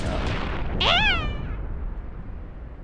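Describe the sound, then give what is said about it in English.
A single cat meow, a short high-pitched call that swells and fades over a steady hiss of background noise. “I'm afraid of cats! Get that cat out of my Brimstone Suite!”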